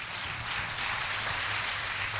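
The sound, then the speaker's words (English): Faint, steady applause from a church audience during a service, a dense even patter of many hands holding at the same level throughout without voices. “How about it one more time? Give them applause as they make their way to the back.”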